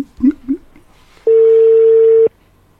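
A telephone ringback tone heard while a call is placed: one steady, even, mid-pitched tone lasting about a second, preceded by a few brief soft blips.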